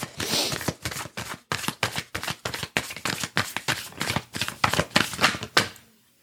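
Tarot cards being shuffled and pulled from a deck, a long run of many rapid papery riffles and crisp flutters that come in quick bursts with short breaks, fairly loud and steady, with no talking.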